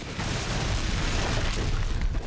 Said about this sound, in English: The dynamite explodes, and they all go back to inspect the damage.